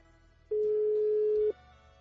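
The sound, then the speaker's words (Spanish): Telephone ringback tone of a call going unanswered: one steady mid-pitched tone lasting about a second, starting and stopping abruptly over a low background hum. “te estamos marcando, pero no. Pues no toma la llamada.”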